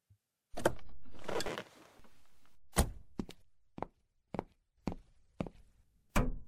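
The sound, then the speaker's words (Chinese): A car boot being opened: a sustained mechanical whirring burst, then a series of sharp thunks and knocks at an irregular rhythm, with quieter rustling between them. “把后备箱打开下，妈妈把泡澡的东西放进去。”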